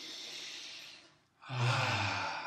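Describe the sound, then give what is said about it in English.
One deep breath, a soft airy inhale followed after a brief pause by a louder, fuller exhale that ends in a low, voiced sigh, heard alone without talk. “Let's take one breath to clear our mind.”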